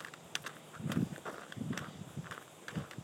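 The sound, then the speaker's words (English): Footsteps on a walk around a farm on an autumn morning, a steady series of soft crunching steps at an easy walking pace, fairly faint, with no voices. “I am at my parents' farm, Oriole Acres as I have dubbed it, for the Thanksgiving festivities, and I'm just taking a walk on a beautiful autumn morning”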